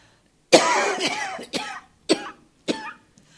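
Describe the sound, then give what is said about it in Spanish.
A feverish woman coughs in a radio drama: a long, rough opening cough, then a few shorter, sharp coughs spaced apart, fairly loud and with no speech. “como no me salían las palabras de la calentura que tenía, empiezo a toser.”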